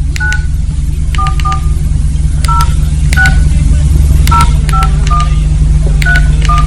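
Touch-tone telephone keypad beeps as a number is dialed: a quick, irregular string of many short two-tone beeps over a steady low hum.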